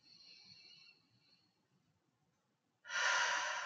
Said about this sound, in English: just take a couple of deep breaths. And just do it again.